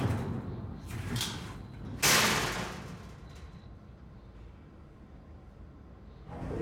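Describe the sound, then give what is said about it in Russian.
Cage doors yanked and forced, with a chained padlock twisted: a few sharp metallic bangs and rattles, the loudest one in the middle, then a low, steady rumble with faint clatter and no voices. “Дергает двери. Пытается их выломать. Крутит висящий на цепи замок. Снова дергает двери. Открыть их у него не получается.”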